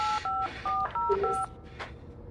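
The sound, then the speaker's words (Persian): Telephone keypad tones as a number is dialed: five short, clear two-note beeps in quick succession, each a steady electronic tone, followed by faint rustling. “حالا دوباره بهش زنگ بزن.”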